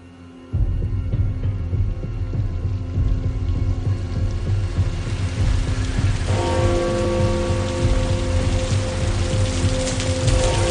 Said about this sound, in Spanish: Un gran aguacero cae sobre Londres.